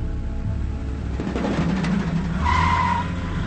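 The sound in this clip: A car backs out of a driveway and speeds away, its engine giving a steady roar before a brief high tire squeal near the end.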